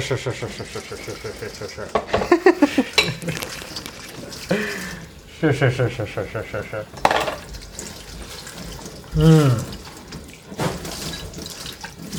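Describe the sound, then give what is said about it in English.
Dishes are washed at a kitchen sink after a carbonara dinner, with tap water running in loud bursts that start and stop several times while people chat over the splashing. “Doing the dishes right now.”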